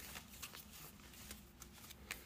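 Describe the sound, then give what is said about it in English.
Oracle cards from the Moon Oracle deck being shuffled by hand, a faint, continuous papery rustle with small uneven bursts throughout. “Let's pull your five cards from the Moon Oracle deck.”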